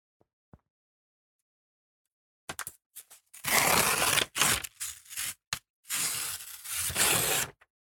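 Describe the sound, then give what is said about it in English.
Paper tearing as an envelope is ripped open: a few small handling taps, then a series of loud, rasping rips in separate bursts, with the longest tear near the end and no voices. “You can tell quality, can't you, by the sound of it ripping?”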